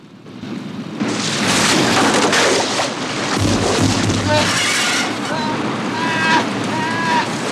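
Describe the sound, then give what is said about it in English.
Rushing whitewater roars steadily as a kayak is battered against exposed rocks, a loud broad churning noise with deep low thumps around the middle. “And pass around an open section of exposed rocks, the kayak getting battered along the way.”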